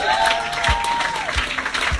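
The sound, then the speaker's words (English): Loud, dense audience applause rings through a bar, a continuous patter of many hands clapping at a steady level, broken by a few soft low thumps. “let's give another big round of applause for Bill out at the bar.”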